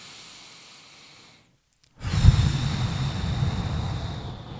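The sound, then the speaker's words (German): A person takes a deep breath in through the nose and out through the mouth: a faint soft inhale, a brief silent pause, then a long, loud, rushing breathy exhale with no speech. “nimmst einen tiefen Atemzug, Nase ein, Mund aus.”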